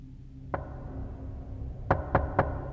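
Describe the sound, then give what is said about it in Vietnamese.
Knocking on the door of a security guard's room: one single knock, then after a pause three quick, evenly spaced knocks over a low, steady background hum. “thì cánh cửa phòng bảo vệ vang lên tiếng gõ cửa.”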